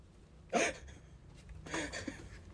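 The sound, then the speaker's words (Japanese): A single short, sharp hiccup from a man with a bout of hiccups, fairly loud and abrupt, followed a moment later by softer, breathy vocal noise. “もうしゃっくり出たから”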